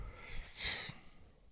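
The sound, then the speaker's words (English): A person yawns with a faint, breathy, drawn-out exhale that swells briefly in the middle and then trails off into quiet. “Hey, why are you yawning?”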